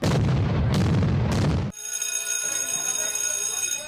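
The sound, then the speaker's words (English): A cartoon explosion effect for a brain bursting from too much information: a loud, dense blast with sharp cracks, then an abrupt cut to a sustained, high, ringing tone. “My brain, all this information, is about to explode!”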